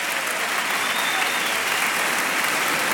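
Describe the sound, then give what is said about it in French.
A studio audience on a French radio quiz show applauds wildly: a dense, even roar of clapping that holds loud and unbroken from start to finish. “Bravo! Vous culminez à des sommets dans ce spécial jeu du jeu des 1000 euros. Abel Jacobin, Martin Peu, Jean-Nicolas, avec un public en folie, on le comprend.”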